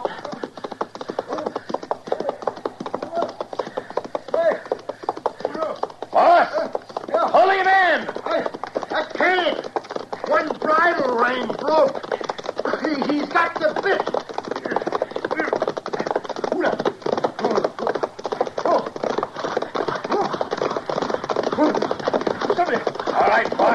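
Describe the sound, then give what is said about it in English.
Hooves clatter from a bolting horse in a rapid, unbroken rush that stays loud for over twenty seconds, with brief vocal sounds mixed in around the middle. “Hey, his horse bolted on him. Or else he's trying to get away.”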